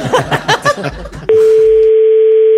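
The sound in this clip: A telephone line tone sounds as a random call is placed, a steady, loud, unbroken tone that follows a stretch of talking and runs to the end.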